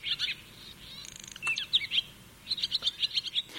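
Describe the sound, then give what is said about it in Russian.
Barn swallow singing, a rapid high twittering of chirps and trills delivered in several quick bursts, the last a run of many sharp notes, fairly faint over a soft steady background, with no voices. “Вот послушайте, как поет деревенская ласточка. У нее очень характерный голос.”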